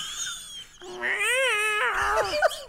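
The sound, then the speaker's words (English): A large male cat gives a single drawn-out, wavering meow. It is fairly loud and clear against a quiet background. “Oh, it's just a large cat.”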